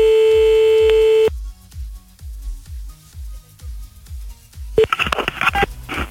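Telephone tones while calling someone back after a hang-up: a steady dial tone, a quieter stretch, then a quick burst of dialing tones, with a low, regular thumping pulse underneath throughout.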